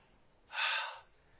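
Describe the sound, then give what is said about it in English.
A single breathy exhalation, a person pronouncing the Hebrew H sound with nothing but air: a soft, airy hiss that swells and fades over about half a second, alone against quiet. “It is the sound made by nothing but the breath.”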